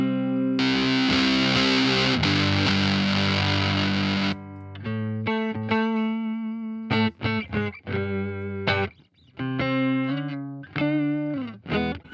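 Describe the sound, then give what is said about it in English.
Electric guitar played through two fuzz pedals on a pedalboard: a loud, thick, buzzing sustained chord rings for about four seconds, then drops to a run of many separate, gritty picked notes and short chord stabs. “So that's the two fuzzes I'm using.”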